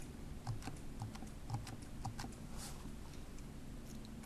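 Typing on a computer keyboard while entering a line of code: many soft, quiet keystroke clicks in an uneven rhythm, heard alone without talk.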